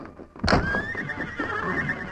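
A horse neighing in a stable: a sudden loud burst that settles into a long, high, sustained whinny, then trails off softly.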